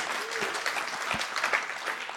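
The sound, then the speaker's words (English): Audience applause at a church gathering, given for a group who had just been on stage: a steady, dense wash of many hands clapping, fairly loud and even for about two seconds with no talk over it. “Give these guys a round of applause.”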